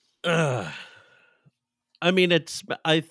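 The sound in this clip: A deep breath, heard as one long voiced sigh, taken while smelling tomato soup flavored bear DNA. The sigh fades out and is followed by talking.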